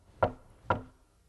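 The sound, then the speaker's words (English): Two sharp knocks on a door, evenly spaced and fairly soft, against an otherwise quiet background. “And then there was another knock at the door.”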